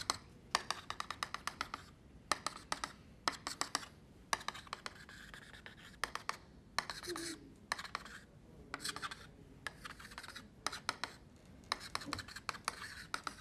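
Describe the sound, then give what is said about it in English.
Scratchy strokes of someone drawing a wireframe cube, many short rasping bursts in an irregular rhythm separated by brief quiet gaps. “All right, now let's play with an imaginary cube. And I call this a wireframe cube because I draw it like this.”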